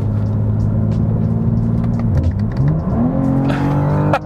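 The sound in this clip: A car engine in M2 drive mode with traction control enabled revs loudly with a strong harmonic drone. The note sags in pitch midway, climbs back up, and ends in a sharp burst.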